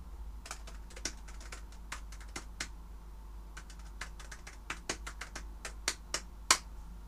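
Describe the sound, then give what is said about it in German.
Computer keyboard typing as an email is written: many faint, irregular key clicks in uneven bursts, with one sharper tap near the end, and no voices. “ich muss noch schnell die E-Mail fertig schreiben.”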